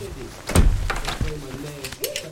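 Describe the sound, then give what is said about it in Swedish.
A door is shut with a short, heavy thud near the start, and people keep talking around it. “Kom in. Stäng dörren efter dig bara.”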